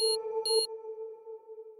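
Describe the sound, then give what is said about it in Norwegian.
Electronic alarm from a personal safety alarm worn on the arm, set off by mistake in an apartment: a steady, fairly faint mid-pitched tone with overtones, with two short high beeps near the start. “Og ved en feil utløser han trygghetsalarmen han har på armen.”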